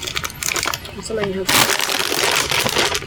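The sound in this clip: A crinkly plastic bag of tortilla chips is torn open, with a loud, sustained crackling rustle that takes over the second half after a brief stretch of quieter sound.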